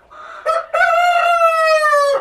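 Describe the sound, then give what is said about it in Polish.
A rooster crows among exhibition breed chickens at a poultry breeders' show: a short call, then one long, loud, strongly harmonic crow held steady and sinking slightly in pitch at the end. “Podskakujące koguciki.”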